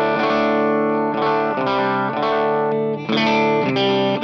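Electric guitar chords through a boosted overdrive pedal into an amp set clean, carrying a light gritty edge; a series of ringing strums follows one another steadily, with a brief dip before the final ones.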